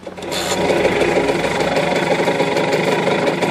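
The engine of a Fortschritt E930 runs while driven in second gear. After a brief burst at the start, it settles into a rough, knocking, mid-pitched drone that holds steady throughout, with no voices.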